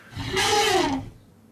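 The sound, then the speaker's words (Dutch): A happy elephant gives a single call, a moderately loud roar lasting under a second whose harmonic tone glides downward in pitch, heard alone. “Was dit een blije olifant? Ja, dat is de blije olifant.”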